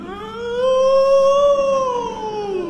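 A wolf howls in one long, smooth, tonal cry that rises in pitch, holds, then slowly sinks, heard alone without voices.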